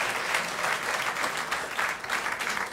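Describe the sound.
Audience applause fills the whole stretch: dense, steady clapping at an even, moderate loudness with no break and no voices.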